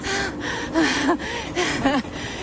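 Heavy, ragged panting from someone out of breath after climbing to a summit: around six loud, partly voiced gasping breaths in quick succession, with no talk.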